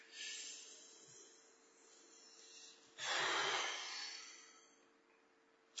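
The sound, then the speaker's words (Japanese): Deep breathing from a person sitting up: soft, airy breath sounds with one stronger rush of air midway, faint and without talk. “ちょっと体を起こして。はい、深呼吸。”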